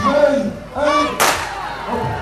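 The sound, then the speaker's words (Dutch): A single sharp starting-pistol crack fired by the mayor to start a running race of about 220 entrants, a brief loud burst with voices and crowd noise before and after it. “Nou, een paar seconden van de start en burgemeester Koen die staat klaar met het pistool. Ik hoop dat hij deze keer niet doof ervan wordt.”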